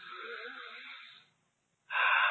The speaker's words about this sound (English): a nice deep breath and come back into that parasympathetic and kind of become more calm